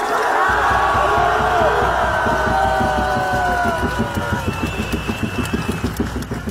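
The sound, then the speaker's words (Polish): A protest crowd roars in the streets of Sofia as defenders of the president gather outside his office: a loud, sustained mass of shouting voices that settles into a rhythmic, pulsing chant toward the end. “To właśnie głośne ulice Sofii.”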